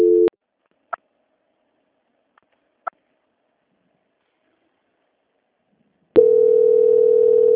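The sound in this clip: A telephone call transfer tone: a brief steady tone, a few faint clicks over silence, then a continuous steady tone that holds to the end of the line.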